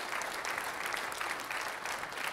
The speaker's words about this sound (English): If you believe it, give the Lord a big round of applause in this place.